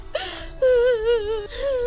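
A grieving person cries and whimpers: high, wavering, tremulous whines broken by short catches of breath and brief pauses.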